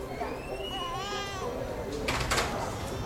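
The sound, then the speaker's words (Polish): An infant cries in a busy branch with cameras, cashiers and customers: a wavering, high-pitched wail with rising and falling contours, heard under talk, followed by a couple of brief noisy bursts. “Płacz Oliwki niósł się teraz po całym oddziale.”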